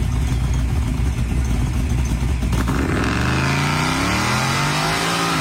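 A car engine revs hard as the car rips down a street: a loud, continuous roar whose engine tone shifts through the second half as the revs change.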